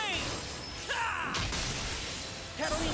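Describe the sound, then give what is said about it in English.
A Tempest Blade spell is cast in a video game, with bright shattering, whooshing bursts of sound effects that flare up, fade and return. “Ooh, cool spell. On me. Let's do a Tempest Blade.”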